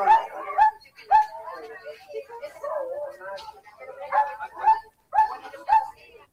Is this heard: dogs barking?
yes